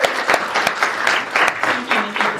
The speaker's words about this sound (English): So please, give her a rousing welcome.